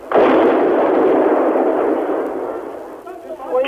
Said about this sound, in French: Elles ont raison, de nouvelles explosions font trembler les murs.